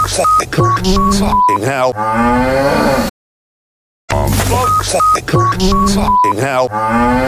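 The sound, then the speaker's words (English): Cattle mooing on a farm, with loud, drawn-out moos in two stretches split by a moment of silence, mixed with short electronic beeps. “A farm.”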